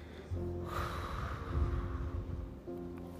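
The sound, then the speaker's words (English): A slow, deep breath, drawn in through the nose and let out through the mouth: a soft, airy rush lasting about two seconds over steady low, sustained tones. “taking a nice, slow, deep breath in through your nose, hold it. Exhale slowly through your mouth.”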